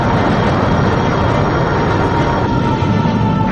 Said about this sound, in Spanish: Ignición. Y despegue. Esto sí que ha sido un despegue.